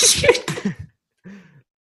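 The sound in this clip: A person sneezes loudly in a sharp burst of breathy noise. A brief, low voiced sound follows after a short pause.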